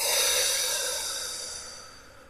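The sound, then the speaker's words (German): A deep breath, in through the nose and out through the mouth, during a guided relaxation exercise. It is a soft, airy hiss that starts strong and fades gradually over about two seconds, with no talk. “Und dann atme einmal tief durch die Nase ein und durch den Mund wieder aus.”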